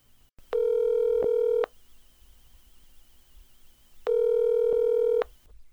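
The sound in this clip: A telephone call being placed: two steady electronic tones, each lasting about a second, separated by a pause of a few seconds with faint line hiss in between. No one speaks.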